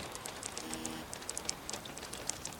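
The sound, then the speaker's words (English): Rainwater drips and splashes onto a camera, a quiet, irregular patter of many small drops with occasional sharper ticks over a soft, hissy background. “Water drips down, splashing on the camera. Nothing moves as the beads of rainwater collect on the camera's lens.”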